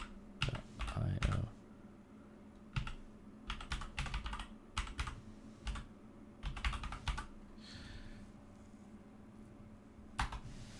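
Typing on a computer keyboard to post a Discord link: irregular bursts of fairly quiet key clicks, with short pauses between flurries, over a faint steady hum.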